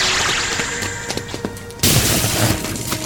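A science-fiction power cage weapon fires a force field. Crackling noise and a few sharp clicks lead up to a sudden loud burst of dense, roaring noise that holds steady until the end.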